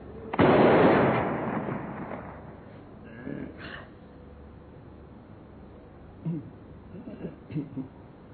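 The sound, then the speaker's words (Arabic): A cannon fires once with a loud boom that rolls into a long rumbling decay, followed by faint, scattered, softer sounds. “مدفع الإرشاد اضرب.”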